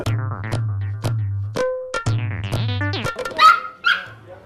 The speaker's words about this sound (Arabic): خلاص خلاص يا عم. بيعترض. الكلب في اليابان له حق انه يعترض انه ما يتصور. كلب ما يبغى يتصور.